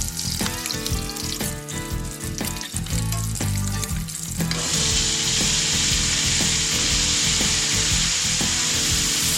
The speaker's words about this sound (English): Sweating some onion down and some bacon drippings.